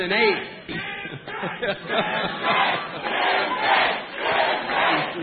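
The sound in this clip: A crowd cheering and shouting at a political rally in Virginia, loud and continuous, swelling and dipping in waves of massed voices.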